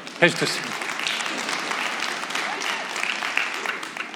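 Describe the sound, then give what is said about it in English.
Audience applause with steady hand clapping during a church sermon in Texas, a dense, loud wash of claps holding evenly for about four seconds, with a sharp burst at the start and voices mixed in. “only in Texas would I get a hand clap like that.”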